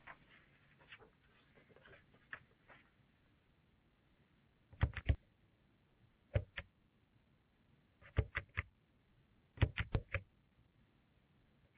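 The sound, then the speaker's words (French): A caller presses keys on a phone keypad to enter contract reference digits, faint sharp clicks in small clusters separated by pauses over a thin telephone line. “Afin de vous identifier, merci de bien vouloir taper uniquement les chiffres de votre référence contrat que vous trouverez en haut de votre formulaire d'enquête.”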